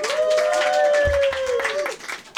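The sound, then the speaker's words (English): Audience applause welcoming the final comedian to the stage at a 2015 Edinburgh comedy show. Dense clapping runs under a sustained musical tone and thins out near the end. “Please give a massive, warm welcome to the stage, our final act tonight”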